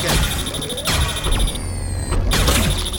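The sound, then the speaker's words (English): A smart bomb explodes in a video game as a dense electronic crash with repeated harsh bursts and descending sweeping tones, over continuous loud game noise. “I use a smart bomb there,”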